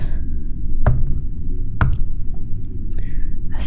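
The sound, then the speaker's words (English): Raps on a door: two sharp knocks about a second apart, followed by a fainter tap, over a constant low rumbling drone. “second rap on the door snaps you from a daze”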